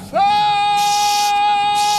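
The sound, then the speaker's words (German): A single loud scream beneath ice that threatens to collapse. It sweeps up sharply at the onset, then holds a steady, piercing high pitch for nearly two seconds without a break. “Noch ein solcher Schrei und das ganze Eis stürzt über unseren Köpfen zusammen.”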